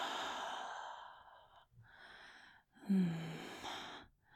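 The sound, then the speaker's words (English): Slow, deep breathing: a long drawn breath in, a brief held pause, then a soft breath out, quiet and unhurried with no talk. “Inhale. Hold. Exhale.”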